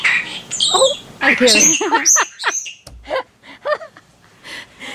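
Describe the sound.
A talking bird mimics human speech, saying a greeting and its own name in high, squeaky, speech-like phrases. A few short, chirpy vocal bursts follow.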